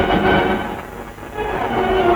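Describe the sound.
A train passing with a continuous, fairly loud rumble and rattle that dips slightly midway and swells again, with no voices.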